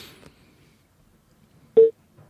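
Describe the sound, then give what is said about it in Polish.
A telephone call connecting during a radio call-in: a single short, loud beep-like tone stands out against near silence, after a faint rustle at the start. “ale jesteśmy na łączach z panem Arkadiuszem”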